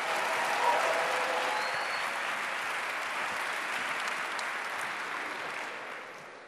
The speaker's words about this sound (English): So I wonder whether right now you would put your hands together and welcome our guest speakers this morning, Ed Shaw and Luke Aylin.